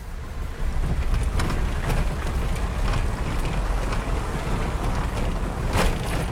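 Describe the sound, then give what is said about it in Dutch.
A car driving on cobblestones where the asphalt gives way to a cobbled street, a steady loud tyre rumble with irregular knocks and rattles running throughout. “Als je vanaf de markt naar het centrum rijdt, verandert het asfalt in kinderkopjes.”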